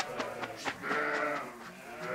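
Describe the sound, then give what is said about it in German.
Pregnant East Frisian milk sheep bleating in a trailer: a wavering, nasal bleat that swells and holds briefly, with a few shorter calls around it over a rough background noise. “Mit so einem Anhänger sind ihre Schafe noch nie gefahren. Hinzu kommt, die Damen sind guter Hoffnung.”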